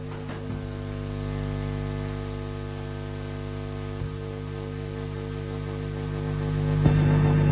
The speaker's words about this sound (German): Stattdessen hat die Klangkünstlerin die Orgel entdeckt, die sie aber keineswegs auf herkömmliche Weise spielt. Ich habe es dann eben so eingestellt, dass es wirklich höllisch rauscht.